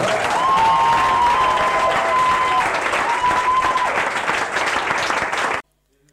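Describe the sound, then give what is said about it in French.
Crowd applause and cheering at a Christian healing and deliverance service, called up to acclaim the name of Jesus; a loud, dense, sustained wash of clapping lasts about five and a half seconds and then cuts off abruptly. “Est-ce que quelqu'un peut acclamer le nom de Jésus”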